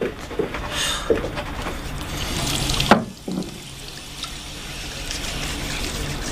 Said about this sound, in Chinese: 你能先去洗手吗？